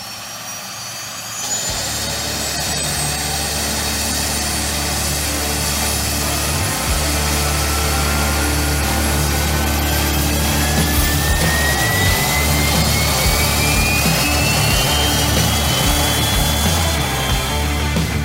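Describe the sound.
A jet engine spools up with a steady, loud roar. A thin high whine climbs slowly in pitch over eighteen seconds, with no voices.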